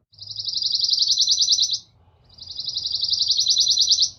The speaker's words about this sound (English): I just played, you would be able to distinguish the chickadees from the warblers.